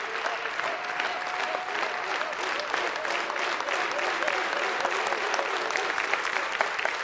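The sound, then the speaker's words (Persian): Applause from an audience standing to clap at a talk: dense, steady clapping that stays loud and even for the whole stretch. “خواهش میکنم بیستید و تشویقش میکنید.”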